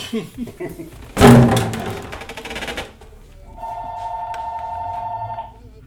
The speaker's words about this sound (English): Somebody's calling